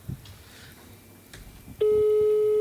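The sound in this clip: A phone rings on an outgoing call placed to wish someone a happy birthday: after a few faint clicks, a loud, steady ringing tone starts partway through and holds unbroken to the end.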